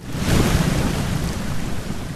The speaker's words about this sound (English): There's tympanic thunder and the trickle of Ribbon Falls.